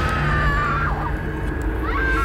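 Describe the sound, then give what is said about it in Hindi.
A woman screams at night near a forest where a campfire burns: a drawn-out, wavering high cry that dips and then rises in pitch over a low rumbling background. “तभी अचानक हमारे कानों में एक दिल दहला देने वाली चीख टकराई।”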